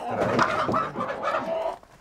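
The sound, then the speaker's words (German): Panicked laying hens and a rooster cluck and squawk as they are caught in their coop, a run of short, agitated calls at moderate loudness that drops away near the end. “Vier Legehühner und ein Hahn müssen mit.”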